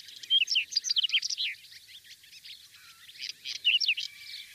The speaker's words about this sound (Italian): Quello che sentite in sottofondo è il canto dello stiaccino, un piccolo uccellino che abita prati estensivi diversificati e ricchi di fiori.